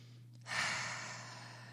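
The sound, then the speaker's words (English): A group takes a deep breath together: one long, soft, airy breath swells in after a brief pause and fades slowly over more than a second, above a steady low hum. “so let's all take a deep breath together.”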